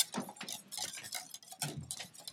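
Whisking in a bowl during a cooking demonstration at a county fair, with a faint, quick, steady run of light clicks and scrapes from the whisk striking the bowl.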